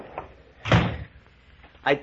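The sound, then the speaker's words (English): A cottage door is shut, giving a heavy, muffled thud followed a moment later by a second, sharper knock; both are brief and fairly quiet. “Shut the door after you come in”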